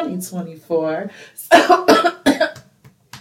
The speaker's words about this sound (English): I think, honestly, I'm coughing